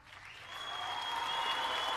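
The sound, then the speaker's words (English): Talk-show audience applause welcoming a guest onto the couch, swelling from quiet to a full, even roar of clapping that holds steady to the end. “Private Talk, give it up for Ms. Sherry DeVille.”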